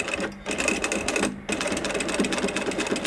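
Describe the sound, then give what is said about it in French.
A sewing machine stitching a strap that has a quick-release buckle, using thick thread. It runs in a fast, steady buzzing rattle that breaks off briefly twice before continuing. “Là, actuellement, je suis en train de coudre une sangle avec une accroche rapide. Le fil, il est assez épais.”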